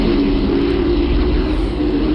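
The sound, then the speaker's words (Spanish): A recording presented as the sound of planet Earth from space: a loud, dense, steady drone with a low humming band, unchanging throughout. “el planeta Tierra como suena”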